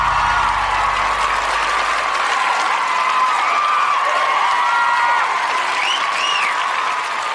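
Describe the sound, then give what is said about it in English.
Sustained applause from an audience, a dense, even wash of clapping that stays at a steady, loud level from start to finish. “Ladies and gentlemen, put your hands together for the Podcasters.”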